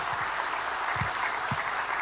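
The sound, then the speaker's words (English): Audience applause from many hands clapping fills the whole stretch as a dense, steady patter at an even, moderate level, with no voices over it. “Can you give Ryan a big hand of applause for working through all of that?”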